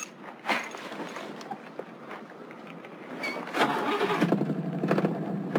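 A car engine is starting: a low, noisy mechanical churn with a few sharp clicks. Past the midpoint it catches and swells into a louder, steadier rough roar that holds to the end.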